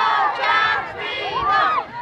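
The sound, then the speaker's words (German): Homeless refugees chanting together in a loud chorus at a street protest, many voices shouting in unison with rising and falling tones in two rhythmic phrases. “Immer wieder schließen sich Hunderte zusammen und rufen in Sprechchören: Wir wollen kein Camp, wir wollen Freiheit.”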